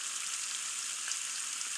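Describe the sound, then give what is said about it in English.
Farmhouse bacon fries in its undrained fat, giving a faint, steady, dense sizzle with soft crackles and no voices. “Just wanted to show you what it's like if you don't drain farmhouse bacon.”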